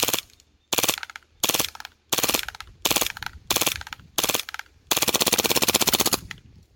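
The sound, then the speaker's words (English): A gun firing full auto in seven loud bursts of rapid shots, the first six short and evenly spaced, the last one much longer, with brief silences between. “I'm not going to run full auto too much. Yeah. I don't want to mess up the gun.”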